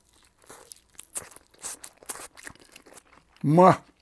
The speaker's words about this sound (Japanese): 創業42年持ってる素朴な巻き寿司、これがいいんだな。いただきます。